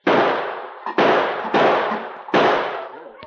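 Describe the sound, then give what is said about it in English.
Four sharp revolver shots from a six-shooter fired at a tin can set up in the snow during target practice. Each loud crack rings out and decays, spaced irregularly, and a faint click follows at the end. “he amused himself by taking target practice with his six-shooter on a tin can which he had set up in the snow about 50 yards away.”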